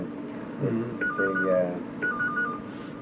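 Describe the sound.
A telephone rings in two short bursts of warbling electronic tones about a second apart, moderately loud over a low background hum.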